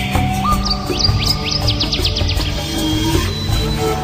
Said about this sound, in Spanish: Escucha los sonidos. El dulce canto de las aves.